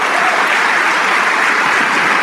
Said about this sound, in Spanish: Vamos a darle un aplauso al Rey de Reyes.